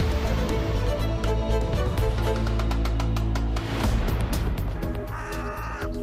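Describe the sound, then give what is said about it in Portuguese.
Carrion crows caw in many harsh, rasping calls repeated throughout, loud against a dense, steady background. “Da astuta gralha preta. Ouve-se a grandes distâncias e nas mais variadas regiões do país.”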